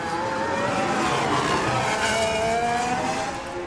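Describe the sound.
A race car's engine roars as it brakes for the first corner of a six-kilometre circuit, a loud continuous snarl of dense, shifting engine tones with no voices.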